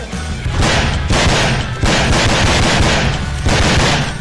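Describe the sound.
Video game gunfire with headshots crackles in loud, rapid, sustained bursts broken by a few brief gaps, with no talk over it.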